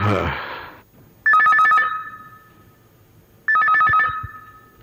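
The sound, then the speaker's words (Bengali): A telephone rings at night in two separate bursts of rapid, trilling electronic tones with a quiet gap between them. A short, loud burst of other sound comes just before the first ring. “রাতে রাতে আবার কে phone করল?”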